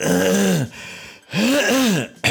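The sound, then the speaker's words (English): Phlegmy throat clearing in two drawn-out, gravelly, voiced rasps separated by a short pause. “you got phlegm in your throat. Well, I hope it's phlegm.”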